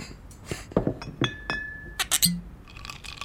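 Glass clinking as liquor bottles and glasses knock together: a few bright, sharp chinks and one ringing tone, then a quick cluster of clinks, with faint rustling in between.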